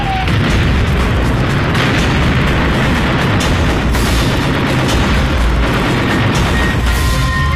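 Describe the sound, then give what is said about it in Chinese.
Bombs exploding on the flight deck of the Japanese aircraft carrier Kaga, a loud, continuous roar of booming blasts that never lets up across the whole clip. “一颗炸弹落在了加贺号航母的飞行甲板上”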